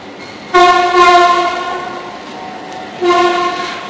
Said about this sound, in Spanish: Voy a dejar que pase el metro.